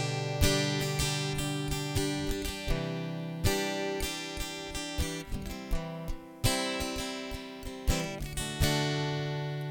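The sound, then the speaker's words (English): Acoustic guitar strummed with bare fingers: many soft strums in a steady rhythm, each chord ringing briefly before the next, with no talking. “This is just me with my fingers. I'm just strumming with my fingers.”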